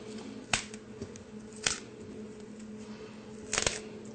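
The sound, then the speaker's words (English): Broccoli florets snap off a head and drop into a bowl, giving a few crisp, sharp cracks spaced irregularly apart over a faint, steady background hum. “You start out with a head of broccoli, and you cut it off, break it off, and drop it right into the bowl.”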